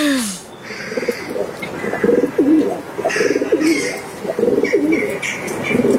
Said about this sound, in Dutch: Want we luisteren naar een duif die door zijn schoorsteen koert.